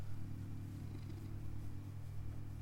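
Cat purring: a soft, steady low rumble that carries on evenly throughout, faint and alone with no other sounds.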